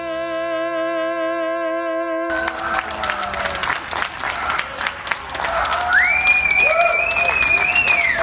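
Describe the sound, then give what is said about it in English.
A New York City crowd claps and bangs pots and pans in a springtime celebration of essential workers, a loud, dense, continuous wash of applause and clattering that carries on without a break. “This was the sound of New York City in the spring, clapping and pots and pans banging in celebration of what we've come to call essential workers.”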